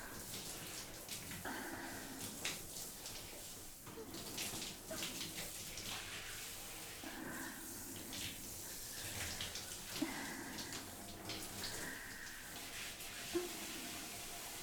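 Running water rinses someone off while bathing at a hot spring. The water pours in a faint, steady hiss with soft splashes and patters scattered throughout.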